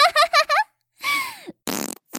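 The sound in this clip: A string of fart sounds: four quick buzzing blasts, then a longer one that slides downward, and finally a rough, raspy burst, all loud and separated by brief silences.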